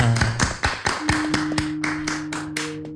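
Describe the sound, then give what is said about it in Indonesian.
Audience clapping in a steady, even rhythm, with many sharp separate claps over a low sustained hum. “Tepuk tangan di sila Pak.”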